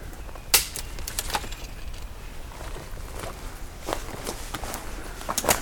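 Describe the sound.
Footsteps push through brush off a trail, crunching and snapping at irregular intervals. A sharp crack stands out near the start among steady rustling.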